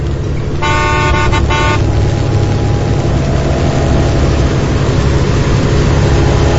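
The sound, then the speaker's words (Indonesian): A minibus honking its horn repeatedly at a motorcycle ahead on the road. A few bright blasts come early, one longer and then shorter ones, over a loud, steady rumble of engine and traffic. “mobil minibus di belakangku itu mengklaksonku terus menerus dan memberi lampu dim padaku.”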